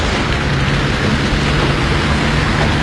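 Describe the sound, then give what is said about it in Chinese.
Rain falling outside a car, a loud, steady downpour heard as a dense, unbroken hiss over a low rumble, with no voices. “外头下雨，你不知道呀？”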